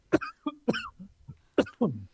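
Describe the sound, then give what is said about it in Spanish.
A short coughing fit: a series of harsh, throaty coughs in quick bursts, some separated by brief pauses, fairly faint and with no speech. “Me agarró un ataque de tos, les pido disculpas. Con tos.”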